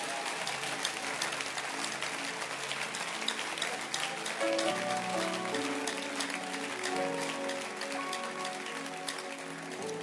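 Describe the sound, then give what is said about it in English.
An audience at a church service clapping hands: steady, dense applause from many people, a continuous patter of claps at moderate loudness lasting throughout, with a faint tonal hum of music underneath. “Can you clap your hands once again?”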